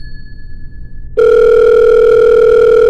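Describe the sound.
A telephone tone as a switchboard connects a call: after faint thin tones, a loud, steady, even tone starts abruptly and holds unbroken to the end, with no voices.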